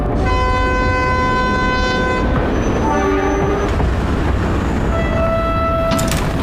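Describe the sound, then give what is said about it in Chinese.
A train pulls into a railway station with a steady, loud rumble that runs throughout, overlaid with sustained high tonal whines and horn-like tones that start and stop. No voices are heard. “准备下车了，检查一下自己行李。 列车到达海河火车站。”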